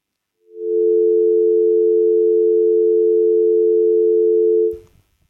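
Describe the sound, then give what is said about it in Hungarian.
A single steady telephone tone during a failed call attempt: one unbroken mid-pitched beep lasting about four seconds, loud and alone, ending with a brief click. “Egy kis technikai probléma akadt, megpróbáljuk még újra hívni Szőke Pétert.”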